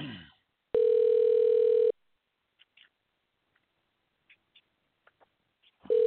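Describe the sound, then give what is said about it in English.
A telephone being dialed: a steady electronic line tone holds for about a second, then stops for a series of short, faint clicks, and the tone starts again at the very end. “Okay, let's dial.”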